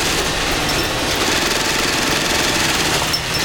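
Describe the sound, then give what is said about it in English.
Rows of sewing machines running together in a sweatshop make a loud, dense mechanical rattle and hum that stays steady and unbroken from start to finish. “agent enters the adjacent room to find Asians toiling at rows of sewing machines.”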